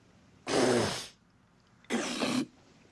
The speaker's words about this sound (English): Seabass lifts Harry's burger bat, leans over it, and spits thick brown phlegm onto the meat, then replaces the bat